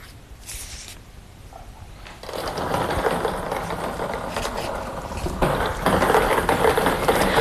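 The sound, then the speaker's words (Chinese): A lottery drawing machine starts up and tumbles numbered balls for a Jiangsu sports lottery seven-digit draw. After a quiet start it becomes a dense, steady rattling whir, slightly louder near the end, with no talking. “请工作人员启动摇奖机。”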